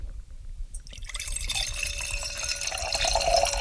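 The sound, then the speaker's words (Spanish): Bodegas de Alberto wine being poured into a glass, a continuous bright, splashing trickle that starts abruptly after a short quiet moment and keeps flowing steadily to the end, with no voices. “Es el sonido del vino de Bodegas de Alberto en una copa.”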